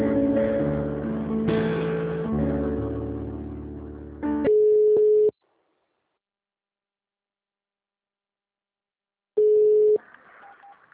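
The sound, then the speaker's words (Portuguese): Telephone call being transferred: a sustained, buzzy layered tone gives way to a short, steady pure ring tone, then silence and a second identical tone burst, with no voices. “só um minutinho, eu vou te transferir lá na folha de pagamento, você vai falar com o Kelly”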